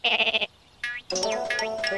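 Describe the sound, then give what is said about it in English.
Sheep bleating in a field: a few loud, wavering bleats, the first with a rapid quivering tremolo, followed after a short pause by a brief call and then a longer, sustained bleat. “No, not the sheep. He's behind the sheep.”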